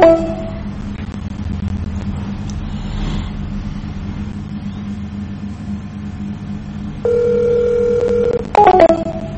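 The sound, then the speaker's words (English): Telephone keypad tones on a voicemail system: one long dual-tone beep followed by a couple of short keypresses, heard over a steady low rumble. “To access your mailbox, press star, your 6-digit extension.”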